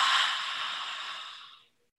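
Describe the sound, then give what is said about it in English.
Throat exhale made with the mouth and throat held open: one sustained, airy, hissing breath that starts fairly loud and fades steadily to silence in under two seconds. “The throat exhale is just kind of like opening up your mouth and you're opening up your throat and you're creating this sound.”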